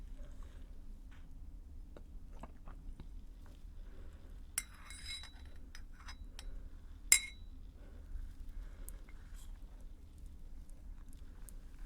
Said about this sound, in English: And then give the tea a nice stir.